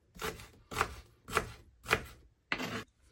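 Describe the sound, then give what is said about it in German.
A knife chops an onion on a board in a small home kitchen, giving five firm, evenly spaced strokes at a steady unhurried rhythm with short quiet gaps between them. “Jo, die Zwiebel habe ich auch geschnitten und habe sie hier in ein kleines Glasschälchen reingetan.”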